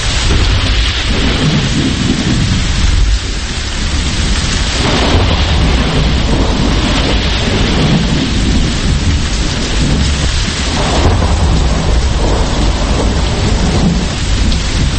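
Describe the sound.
Rolling thunder rumbles through a heavy, steady downpour, the rain a loud, continuous hiss that never lets up across the whole stretch.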